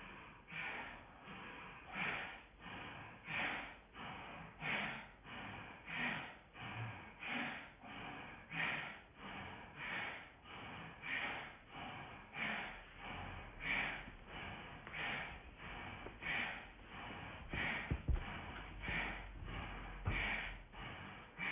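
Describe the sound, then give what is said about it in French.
Bhastrika bellows breathing in a yoga practice: many quick, forceful puffs of breath in a steady, even rhythm, kept up for the whole stretch at a quiet level with no talk. “Et on va également faire un petit souffle de Bastrika de ce côté-là.”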